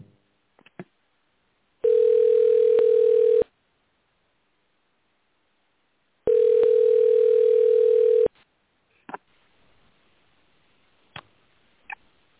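A telephone dial tone on a faulty landline comes as two long, steady, buzzing tone bursts separated by silence, with a few sharp clicks before, between and after them.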